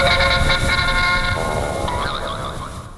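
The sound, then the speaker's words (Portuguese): An old-fashioned jingle opens a word-of-the-day segment, with bright, honking horn-like tones and wavering pitches over a busy backing that slowly fades toward the end. “Palavra do dia, roda a vinheta antiquada.”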